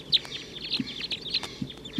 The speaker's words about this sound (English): The wild birds in the treetops are calling now. Wild flock taking off